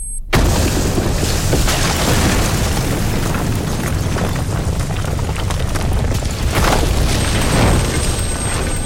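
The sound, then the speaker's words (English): Ground explosion: a sudden loud onset bursts into a sustained, heavy roaring rumble that stays powerful and dense for several seconds, with no voices. “before something makes a high-pitched click in the air. and the ground explodes.”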